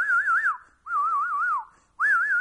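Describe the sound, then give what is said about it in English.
Kids whistle a warning in an Arab neighborhood that soldiers' jeeps are approaching: three loud, wavering phrases, each trilling up and down in pitch with short gaps between them. The last phrase is cut off. “They have kids who see the Jeeps coming and they start to whistle.”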